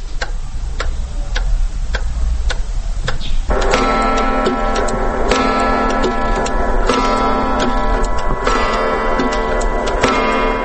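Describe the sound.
A large, newly finished clock ticks steadily and regularly. Partway through, a dense sustained ringing tone joins and carries on beneath the continuing ticks.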